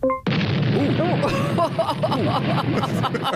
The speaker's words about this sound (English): That's too bad because it was on a Samsung, too. That's probably why it exploded.